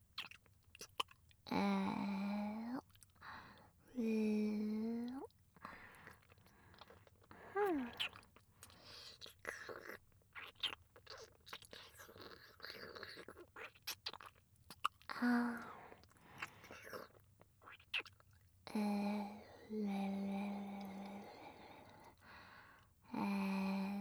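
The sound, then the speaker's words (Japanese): Faint, irregular wet tongue-licking and slurping sounds, broken up by several breathy whispered vocal passages that rise above them. “ほら、舌も使うよ。”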